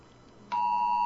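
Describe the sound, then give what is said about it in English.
A phone's emergency alert tone for a tornado warning: after a quiet lead-in, a loud, steady, high-pitched electronic tone starts abruptly and holds unbroken to the end. “Oh, there goes my phone. Hold on. Extreme alert. Tornado warning.”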